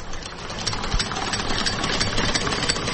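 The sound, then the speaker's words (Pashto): A well-made sewing machine used for home tailoring runs with a rapid, even mechanical chatter and whir, its loudness steady from start to end with no voices over it. “نام خدای، ډېر ښه ماشین دی، کارخانه یې متبره ده. دام په مجرات کې اخیستی و. یو څو وخت ما په کور کې خیاطي وکړه”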